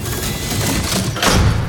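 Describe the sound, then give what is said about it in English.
A lift gate closing: a broad, noisy clatter that ends in a heavier thud near the end, fairly loud with no voices. “The gate closes.”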